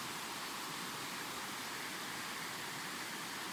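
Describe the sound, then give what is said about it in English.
Flowing water where two rivers meet at a confluence makes a faint, steady hiss and rush that stays even from start to finish. “Look it, it's a confluence. The confluence is always a sacred, special place where two rivers meet.”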